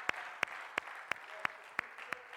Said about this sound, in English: let's give him a hand clap of praise, amen